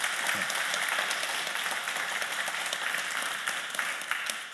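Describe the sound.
Audience applause welcoming two authors at a talk on stories of empire: dense, steady clapping that holds at an even level throughout.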